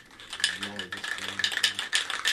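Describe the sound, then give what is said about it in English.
A can of spray paint shaken by hand, giving a rapid metallic rattle of the mixing ball that comes in many rhythmic bursts, steady and fairly loud with no voices. “shakes a can of spray paint, then starts applying it to a canvas.”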